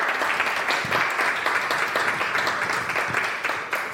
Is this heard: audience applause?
yes